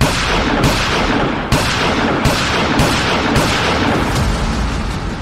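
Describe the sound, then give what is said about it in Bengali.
Repeated gunshots from a six-round gun fired at a creature: heavy booming blasts at a steady pace, about one each second, over a dense, continuous roar. “আর একদম সামনে থাকা কদাকার জীবটিকে লক্ষ্য করে বন্দুক চালিয়ে দিল”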